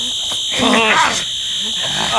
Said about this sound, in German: dass du per Fernbedienung den Alarm der Schatztruhe im Auto ausgelöst hast